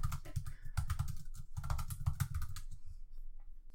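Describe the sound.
Rapid typing on a computer keyboard during an online search, with many quick, light key clicks in an uneven, steady stream and no talking.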